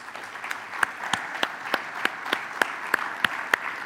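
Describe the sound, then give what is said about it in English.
Audience applause at a church gathering welcoming a guest speaker to the front: a soft bed of clapping with crisp, evenly spaced individual claps standing out in a steady rhythm. “And so I want us to put our hands together now. I want us to give a warm OCC welcome to Peter Ignatius as he comes to share.”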